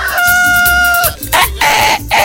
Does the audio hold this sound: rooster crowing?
yes